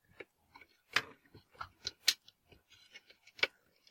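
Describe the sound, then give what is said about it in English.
Quiet, irregular clicks and ticks come from a screwdriver working the mounting screws out of a power supply circuit board, with many sharp little metallic snaps separated by short pauses. “now unscrewing the mounting screws of the power supply PCB. One screw.”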